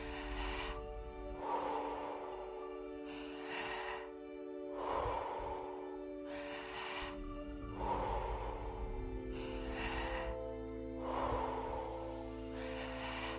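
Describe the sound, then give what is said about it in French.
Slow, deep breaths drawn into belly and chest in a smooth, cyclic rhythm with no pause between inhale and exhale. A few soft, airy rushes rise and fall over a steady musical drone. “Inspirez dans le ventre et la poitrine, relâchez. Comme une vague, c'est cyclique. Il faut que ce soit fluide.”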